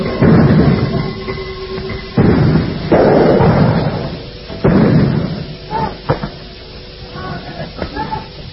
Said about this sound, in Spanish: mientras las bombas de gases lacrimógenos comienzan a acercarnos. Se escuchan también algunos disparos de armas de fuego.